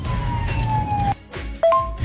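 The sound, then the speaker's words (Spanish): Siren of an ambulance passing through stalled traffic, a steady wailing tone that holds, cuts off briefly, then starts again at a slightly lower pitch, over a rumble of vehicles. “Afortunadamente le dieron paso a la ambulancia y ya cruzó.”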